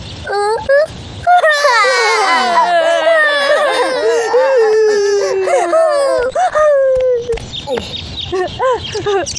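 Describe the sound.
Children crying and wailing, several high, wavering voices in long, overlapping sobs, loud, with a short pause near the start and choppier sobbing at the end.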